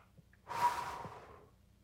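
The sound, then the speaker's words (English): A voice imitates a breath, God breathing life into a man: one soft, airy breath swells quickly, then tapers away over about a second, faint and alone with no talk. “the Lord God leaned down and he breathed life into Adam. Can you just picture that? Here's this man laying on the earth, and God goes,”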